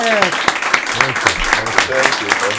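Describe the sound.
Applause welcoming a special guest onto a show: a steady, dense crackle of clapping with voices calling out over it throughout.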